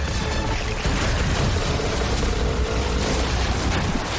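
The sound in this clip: Pirate boats crash into each other as a canoe slips between them in an animated adventure film. A dense, loud roar of crunching impacts and rumbling fills the whole clip without a break.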